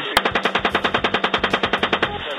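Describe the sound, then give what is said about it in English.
Machine gun fire from US forces during an attack on civilians in Iraq: one loud, sustained burst of many sharp, evenly spaced shots in a rapid, steady rhythm. “The U.S. military has confirmed the authenticity of their own video showing U.S. forces indiscriminately firing on Iraqi civilians.”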